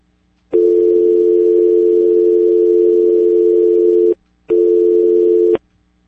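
Telephone line tone after a call is cut off: a steady, mid-pitched electronic hum in two bursts, one long of about three and a half seconds and then a short one after a brief pause, with no voices.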